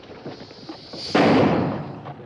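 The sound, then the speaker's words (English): A single gunshot is fired at rattlesnakes, one sharp, loud blast after a stretch of quieter sound, followed by a decaying rumble. “Seems to me you're wasting a lot of cartridges shooting them rattlers”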